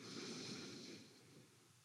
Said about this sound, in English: One more all together. Big inhale.